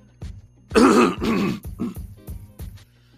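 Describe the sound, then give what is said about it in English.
Throat clearing, a few rough, harsh clears with two loud, drawn-out rasps followed by shorter, quieter throaty bursts, with no speech. “Excuse me, guys. I'm trying to clear my throat. I feel like I can't clear it enough.”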